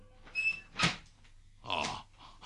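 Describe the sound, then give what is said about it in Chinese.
A door opens with a brief high squeak, then a dull knock, then a rattling creak a moment later, all faint and heard alone. “小姐开门啦，本公子嚟接玉环小姐。”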